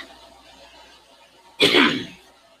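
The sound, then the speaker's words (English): A single harsh cough or throat clearing from a man with a rough morning cough, one loud burst after near silence that fades over about half a second. “Excuse the coughing.”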